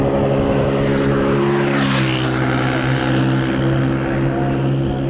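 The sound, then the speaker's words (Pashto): Engine drone of an old motorcycle ridden very fast: a loud, steady, continuous roar with strong low harmonics and a brief rush of hiss midway, with no talk. “د خپل زړه موټر سایکل په واسطه په خورا تیزی روان دی”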